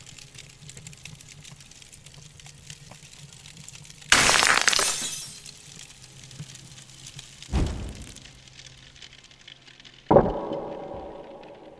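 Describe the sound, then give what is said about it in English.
A brick smashes a glass skylight in a fancy hardware store: one loud crash of shattering glass with tinkling debris, followed by two shorter, quieter glass crashes, with near-silence in between. “Smash the skylight for me. What kind of hardware store has a skylight? A fancy one, apparently. Hand me that brick.”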